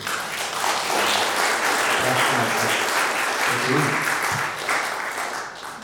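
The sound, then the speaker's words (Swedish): Audience applause rises at once and holds as a dense, steady patter of many clapping hands, then thins slightly toward the end. “en applåd till kvällen”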